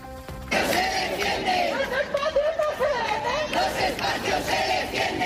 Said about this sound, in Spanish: Y así suena a esta hora la Plaza de Cibeles en la capital.